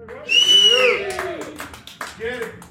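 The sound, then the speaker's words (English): A live audience at a hip-hop producer beat battle cheers to vote, with loud whoops and high whistle-like shouts over scattered clapping. The noise rises quickly, stays strong, then fades and swells again briefly. “If you feel like First Official won this battle, make some noise.”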